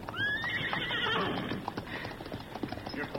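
Ponies being led whinny and clip-clop: a long, high neigh rings out at the start, followed by many quick, steady hoofbeats that stay loud throughout.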